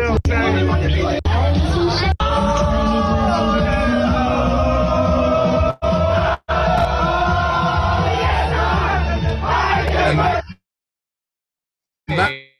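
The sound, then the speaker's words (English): Scotland football fans celebrate their team qualifying for the Euros, a loud mass of yelling, cheering and whooping with a few abrupt cuts, then falling silent near the end before a brief final burst. “that is the sound of Scotland celebrating their qualification for the Euros for the first time.”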